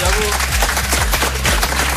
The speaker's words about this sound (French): Bien évidemment, vous pouvez les applaudir, SNT Crew. Bravo.